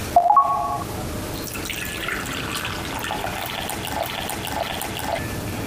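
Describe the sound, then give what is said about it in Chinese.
Warm water, about 50 degrees, is poured into a container, making a continuous splashing, trickling pour that runs throughout, with a brief brighter ringing sound near the start. “50度左右的温水啊。然后加到里边，你们看一下啊。”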